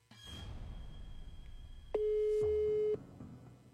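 Telephone busy tone on an unanswered call: a single steady tone lasting about a second, rising out of a faint background hiss and then cutting off.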